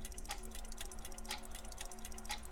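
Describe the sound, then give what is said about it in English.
A clock ticks steadily, three crisp ticks spaced about one second apart, faint over a constant low hum. “Oh, that frickin' clock. That sound, ooh!”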